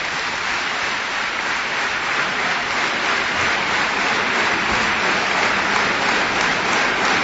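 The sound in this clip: Enthusiastic audience applause after a performance as the performers come back to bow, a dense, even wash of clapping that continues unbroken throughout.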